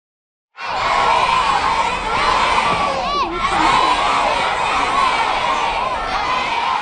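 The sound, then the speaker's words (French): Children at École Vanier in St. John's, Newfoundland, shout and cheer together. After a brief silence a loud, continuous wall of excited young voices breaks in, with a few high whoops rising above it. “entendez-vous les voix des enfants de l'école Vanier à Saint-Jean-Terre-Neuve?”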